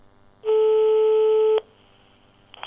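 A telephone ringing tone sounds while calling an electric fencing company: a single steady, sustained tone lasting about a second, then quiet line hiss.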